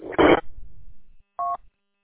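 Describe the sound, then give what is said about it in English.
Telephone tones for an incoming phone call: a short harsh burst of tone, then a single clean two-tone beep after a brief pause, with quiet between and after. “I got a phone call coming in.”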